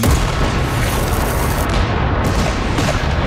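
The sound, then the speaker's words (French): Cannon batteries on a riverbank firing at will on a besieged town make a dense, continuous, loud roar with no separate blasts standing out, steady from start to end, with no voices. “Wolfe va faire installer ses batteries de canon sur la rive adjacente. Maintenant, nous allons montrer à ces scélérats comment faire la guerre comme des gentils hommes. Feu à volonté!”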